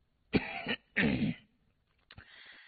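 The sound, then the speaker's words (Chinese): Dry coughs in short, harsh bursts, a few in succession with brief pauses between, fairly quiet and with no talk. “干咳了一声”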